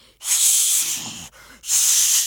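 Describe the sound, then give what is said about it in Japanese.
A voice imitates a big blowing breath of the north wind with a loud, breathy hiss, delivered as two long blasts split by a short break. “そんなに大きな息を吹っかけないでくださいよ。”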